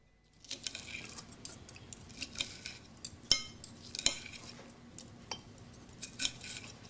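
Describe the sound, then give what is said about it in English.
Knife and fork scrape and clink faintly on a plate as salad leaves are cut, with many soft scrapes broken by a few sharper ticks. “cuts up her salad leaves”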